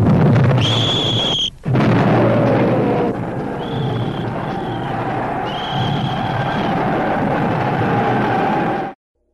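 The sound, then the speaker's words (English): Artillery barrage from French 75 field guns on the World War I Western Front in Champagne, France, 1915: a dense, continuous roar of blasts with high whistling tones drawn over it. It stays loud throughout, then cuts off abruptly. “Order the 75s to commence firing on our own positions.”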